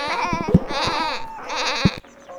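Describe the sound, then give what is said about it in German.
Sheep bleat loudly all at once, with several wavering, overlapping bleats piling up into a dense, continuous din that drops away abruptly near the end. “Alle blöken laut durcheinander”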